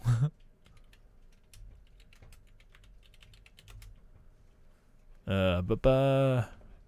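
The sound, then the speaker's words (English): Typing on a computer keyboard gives a faint, rapid, uneven patter of light key clicks that runs for several seconds, with a short voice before it and someone speaking briefly once the typing stops. “let's see if I can type now.”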